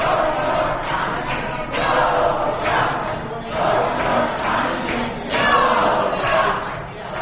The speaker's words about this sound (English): That is the sound of protesters as electors gathered in Lansing to formalize Donald Trump's election to the presidency.